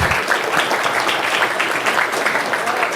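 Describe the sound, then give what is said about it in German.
Loud, dense applause from the audience at the Chemnitz Linux Days conference, many hands clapping in a thick, continuous roar that holds steady for about three seconds. “Insofern vielleicht dafür den ersten Applaus, wenn ich das so”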